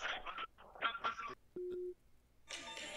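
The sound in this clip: A telephone busy signal as a call fails to connect: one short, steady low tone between stretches of talk.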